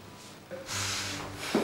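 A person bending forward breathes out deeply: one long, soft, breathy rush of air lasting about a second, faint and alone, over a low steady hum.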